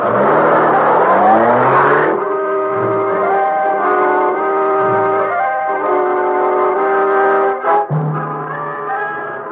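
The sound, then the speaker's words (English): A supercharged car's engine revs hard and accelerates, its roar climbing in pitch over the first two seconds, then settling into a loud, steady drone that briefly drops out near the end. “Take the wheel, Cato. Yes, Miss Bitt. Okay, step on it.”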